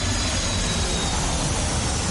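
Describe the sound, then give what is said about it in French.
Jet airplane taking off, heard as a sound effect: a loud, dense, steady engine roar that fills the whole clip without pause, no voices. “C'est comme ça que nous on décolle.”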